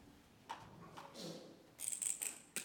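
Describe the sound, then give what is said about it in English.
A title being written on a board: faint rubbing strokes followed by a quick run of short, high squeaks near the end. “I'm just going to write the first part of the title on the board,”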